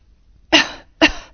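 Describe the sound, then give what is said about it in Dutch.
A person who has fallen ill from cold, rainy weather coughs twice. The two sharp, loud coughs come about half a second apart against near silence, each one quickly fading. “ha, dat hoesten.”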